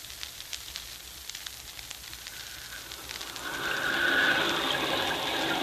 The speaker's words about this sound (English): Look at that rain